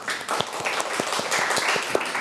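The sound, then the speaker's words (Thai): Children clapping together in a classroom, a quick burst of sparse, uneven claps with soft individual hand strikes scattered over a broad hiss, moderately loud and without talk. “เอาปรบมือให้กองทัพหน่อย”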